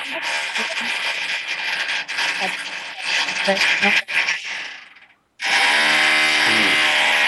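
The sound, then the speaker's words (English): Drilling picked up over an open microphone, a harsh, continuous whirring grind with uneven bursts that cuts out briefly near the end and then restarts at full strength, with voices talking at times. “Sorry, that drilling here. We hear some drilling.”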